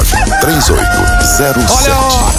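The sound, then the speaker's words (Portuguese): A rooster crows loudly and repeatedly. Its rising and falling calls overlap with clucking and other fowl noise in a dense, continuous din. “Galo cantou.”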